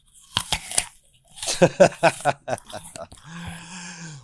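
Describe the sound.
Crisp crunching and chewing of a fresh apple in a few sharp bursts, with breathy mouth sounds between them and a low hummed voice at the end.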